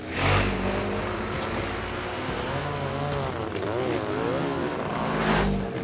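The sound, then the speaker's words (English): Motocross bikes ride over dirt mounds on a racetrack, their engines making a continuous loud, gritty roar that wavers in pitch as the riders work the throttle. “Riders drive over mounds of dirt on a motocross racetrack.”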